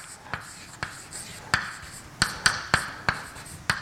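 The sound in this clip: Writing an equation on a board: a series of sharp taps and short scratchy strokes, several distinct hits at an irregular pace over a faint background.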